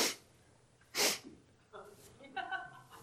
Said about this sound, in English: oh no, I got a sniffle. That was a big sniffle right there.